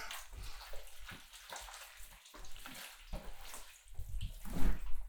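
Water runs and splashes as something is rinsed away, coming in uneven gushing bursts that stay fairly quiet before a louder surge near the end.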